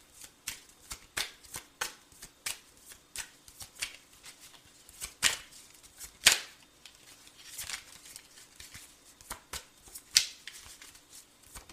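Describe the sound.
Playing cards dealt one after another, many crisp, quiet flicks and snaps spread irregularly, with a few sharper slaps standing out.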